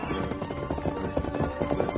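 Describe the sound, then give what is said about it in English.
Galloping horses race into a clearing in a Western scene, their hoofbeats forming a dense, steady, busy rhythm at an even loudness throughout. “The Lone Ranger and Tonto raced into the clearing. The masked man was off his saddle and running as he hit the ground.”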